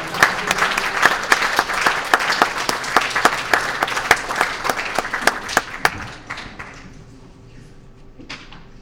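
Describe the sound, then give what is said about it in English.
A church audience claps to welcome a guest speaker at a morning service at Oasis, filling the room with dense, lively applause. The clapping stays strong for about six seconds, then thins and fades away. “would you just give him a warm, friendly welcome to Oasis this morning?”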